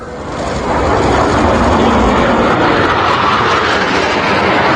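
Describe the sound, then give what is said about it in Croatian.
Two French Rafale multirole fighter jets fly over Zagreb with a loud, dense roar that swells during the first second and then holds steady. “Nadletjela su tako Zagreb dva francuska višenamjenska borbena zrakoplova Rafala nakon što je u Banskim dvorima potpisan ugovor o kupnji 12 takvih primjeraka.”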